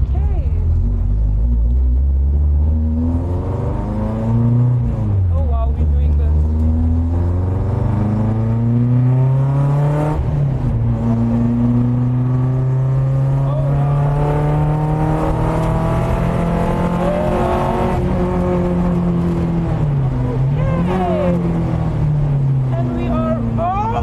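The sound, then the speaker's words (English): A car engine drones as it drives laps on a track. The rumble is continuous and loud, and its pitch climbs and falls again and again as the car accelerates and shifts through the gears. “When we're driving, I'll struggle to hear you. Please don't go too quickly. I'll take it easy. The first few laps.”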